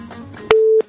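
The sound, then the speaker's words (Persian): A phone line's busy tone after a call-in caller's call is cut off: one steady mid-pitched beep lasting about a third of a second, preceded by a soft low murmur. “بله فکر میکنم تماس خطیبی عزیزم قطع شده.”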